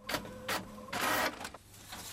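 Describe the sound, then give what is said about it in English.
A printer feeding out a page, faint and mechanical: a few short whirring bursts, then a longer rushing stretch as the paper passes through, ending in quieter clicks. “A page emerges from the printer.”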